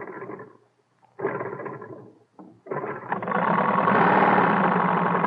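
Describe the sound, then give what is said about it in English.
An early airplane propeller engine, fueled with benzene, is cranked: a few sputtering bursts with short pauses, then it catches into a steady, loud, rumbling idle. “Start the propellers, Will. Benzene on? Benzene on. Switch all right? Got the switch on, too. Give it a crank. Here goes, then.”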